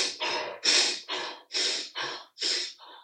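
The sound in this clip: A person takes fast, forceful breaths like sprinting during a chest-and-belly breathing exercise. About eight loud, rushing breath bursts follow one another in a quick, even rhythm, with no talking.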